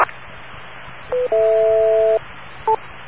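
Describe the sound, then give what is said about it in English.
A series of radio tones received around 1840 and 3575 kilohertz: a brief tone, then a longer steady two-note tone, then another short blip, all over a constant hiss of receiver noise. “does anybody know about these series of tones on those frequencies? 1840 kilohertz and 3575 kilohertz approximately”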